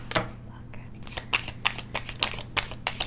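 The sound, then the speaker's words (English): Tarot cards are shuffled and drawn during a reading, a run of crisp snaps and flicks at irregular intervals with soft papery rustling between them. “And as soon as I ask that question, what card comes out? The Ten of Swords.”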